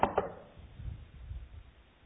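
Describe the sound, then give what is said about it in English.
Knocking on a door: two quick, sharp knocks close together at the start, then only a faint low rumble. “Came Jesus knocking on the door, say, hey guys, let me in. Anybody home?”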